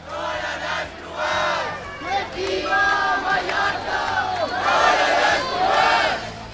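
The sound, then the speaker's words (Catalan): A protest crowd chants and shouts on a Sunday evening in central Palma, Mallorca, at a march against mass tourism. The voices rise in loud, overlapping waves of chanting that keep going without a break. “I aquest que sentiu és l'ambient que hi havia aquest diumenge hora baixa al centre de Palma durant la manifestació contra la massificació turística i sota el lema Mallorca al límit.”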